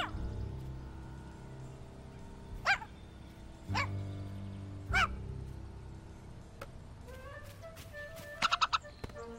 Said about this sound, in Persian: خب الان دیگه توله ها سنجابو میجوان.